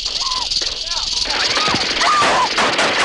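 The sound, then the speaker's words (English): Machine gun fire during an attack on a military camp, rapid crackling bursts over a constant noisy background, with voices mixed in. “Guys shoot machine guns at everything? He just blew them all away with a machine gun.”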